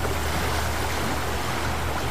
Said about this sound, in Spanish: El río.